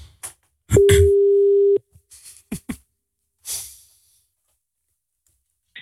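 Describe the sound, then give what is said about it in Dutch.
A steady telephone dial tone sounds during a call to someone's wife. The single mid-pitched tone holds for about a second, with short clicks and brief bursts before and after it. “We bellen jouw vrouw, Tessel.”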